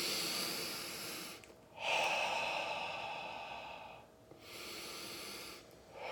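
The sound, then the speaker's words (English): Slow, deep breathing in through the nose and out through the mouth in a guided breathing exercise: a couple of quiet, airy breath cycles, each with a fuller, breathy exhale blown out steadily. “we're just going to take a couple of deep breaths in through our nose, out through your mouth. Blow all the air out like you're outside and it's cold and you can see your breath.”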